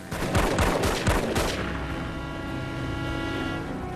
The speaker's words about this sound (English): As he escapes on his bike, the thugs fire their weapons at him.